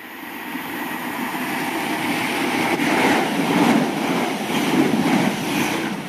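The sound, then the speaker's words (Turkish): A train passing through the railway station of a small English town near Oxford, a loud, steady rumble with broad hiss that swells slightly and holds throughout, with no voices. “Oxford'un biraz dışındaki Didcot adlı kasabanın en meşhur yeri demiryolu istasyonu.”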